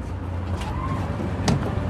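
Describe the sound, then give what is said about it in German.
A large intercity-coach-sized bus pulls up outside a chapel as mourners stream out. A steady, low engine rumble runs throughout, with a few faint higher clicks and rattles on top. “Während die Trauergemeinde aus der Kapelle strömt, fährt draußen ein Bus von der Größe eines Überlandgefährts vor.”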